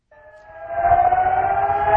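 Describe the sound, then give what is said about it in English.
A siren starts up and winds into a loud, sustained wail, its strength building over the first second and then holding steady with bright harmonic overtones. No voices are heard. “That's the siren.”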